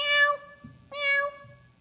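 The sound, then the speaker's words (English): Two cats meow for help, each call a clear, bright, drawn-out meow with rich harmonics, separated by a short pause and heard alone. “They meowed for help.”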